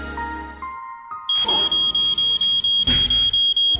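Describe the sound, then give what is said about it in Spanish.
An alarm clock going off: rapid, high-pitched electronic beeps repeat in a steady, insistent rhythm, loud and unbroken, following a short chiming tune. “Son las 6 de la mañana y de un manotazo apagas el despertador, cuyo sonidito irritante y en aumento te impide seguir en la plácidez del sueño.”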